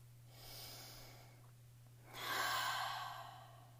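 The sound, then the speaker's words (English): A slow, deep breath during a guided relaxation about releasing overwhelm: a soft inhale, a pause, then a longer and louder sighing exhale, heard alone and quietly over a steady low hum. “Deep breath.”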